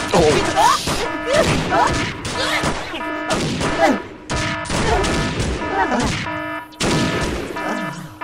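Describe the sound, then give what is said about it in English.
Gunfire aimed at an alien comes in loud, rapid bursts of shots in repeated clusters over a steady droning background. “Shoot him with your guns, man.”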